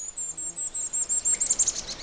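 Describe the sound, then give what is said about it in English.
Golden-crowned kinglet song: a very high, thin series of repeated notes that ends in a quicker, jumbled burst of chips, light and clear with no voices. “the really high one goes dee dee dee dee dee dee dee, then it makes a little chickadee-like ending. That's a golden-crowned kinglet.”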